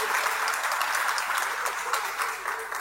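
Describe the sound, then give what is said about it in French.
Audience applause for the singers at a gathering of church choirs. The many hand claps form a continuous, fairly faint patter that holds steady to the end. “Merci, on acclame très fort les choristes qui sont venus nombreux.”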